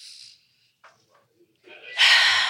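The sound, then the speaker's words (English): Breath pushed directly into a microphone: a few soft, brief breath noises, then a loud, harsh rushing blast of air that fills the last half second. “just breathing. Yes. I didn't mean to breathe all on your mic.”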